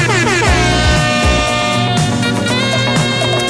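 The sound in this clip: A loud air horn blares in a sustained harmonic blast, its tone sliding briefly at the start before holding steady with slight shifts in pitch.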